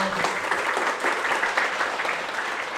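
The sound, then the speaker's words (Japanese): An audience gives brief, steady applause for a guest university professor introduced at a talk on dementia, dense clapping that holds an even level throughout. “拍手お願いします”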